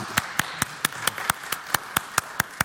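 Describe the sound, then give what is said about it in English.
Hands clapping to welcome a panelist, faint, with twelve crisp, evenly spaced claps in a steady, unhurried rhythm. “How about a hand? All of those who are here, let's welcome them.”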